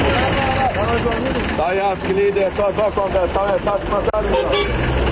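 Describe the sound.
Minibus horns honk to call passengers heading to various destinations; repeated short toots and longer blasts overlap almost continuously across the whole stretch, with voices mixed in.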